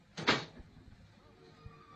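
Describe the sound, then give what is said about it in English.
A door closing behind someone who is leaving: one soft, brief thud with a light rattle near the start, followed by a quiet low hum and a faint knock. “He's gone. The door has closed behind him.”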